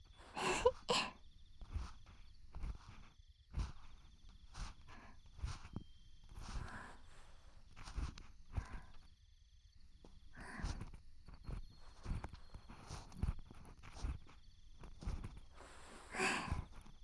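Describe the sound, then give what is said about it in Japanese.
An ear pick cleans an ear with faint, soft scratching and rubbing. Many brief, scraping strokes come at irregular intervals in near silence. “なんだか耳かきをしながら話すのっていいですね。”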